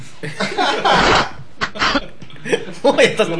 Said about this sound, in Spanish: Le dio tos.